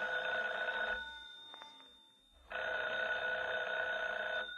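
A telephone bell rings in two long, bright, steady bursts with a short pause between them, and no one speaks over the rings.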